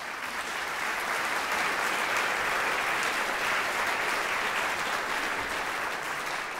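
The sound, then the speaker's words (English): Steady audience applause rings out after an award category for the biggest surprise game of 2016 is announced, a thick, even wash of clapping that holds at a constant loudness the whole way through. “That was good applause.”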